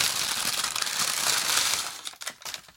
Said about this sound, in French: je te laisse découvrir la friandise que je te rapporte, que je t'offre avec plaisir dans un petit sachet de boulangerie. Voilà, que je vais ouvrir en direct.